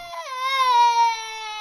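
Human baby crying, a single sustained wail rich in harmonics, dipping slightly in pitch at the start and then holding steady at moderate loudness.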